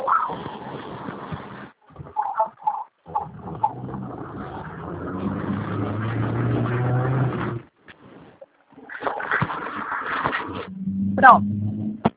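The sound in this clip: A car engine hums while the vehicle is driven, a low steady drone that runs under a talking voice and drops out briefly now and then.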